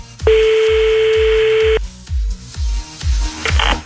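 A telephone call being placed gives one long steady beep lasting over a second, then a few short tones near the end, all over a steady thumping rhythmic beat.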